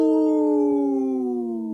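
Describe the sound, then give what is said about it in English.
People howling like wolves, imitating the sound in one long, loud, sustained tonal howl whose pitch slides gradually downward. “We are here howling here.”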